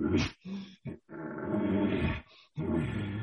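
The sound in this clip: A human voice imitates a bull's growly panting in a breeding sequence, giving several rough, throaty grunting bursts separated by brief pauses, with one long drawn-out growl in the middle.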